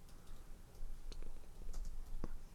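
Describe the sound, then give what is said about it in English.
Faint, sparse taps and clicks of someone typing on a phone with one hand, a few soft, irregular ticks over a low background rumble. “I'm gonna look it up. I can't only type with one hand because I got Izzy.”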